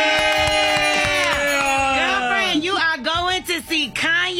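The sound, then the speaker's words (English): A contest's grand prize winner lets out a high-pitched scream of joy, a long, loud sustained cry whose pitch gradually falls, followed by excited talking. “I heard the high-pitched scream. I thought it was supposed to be yay.”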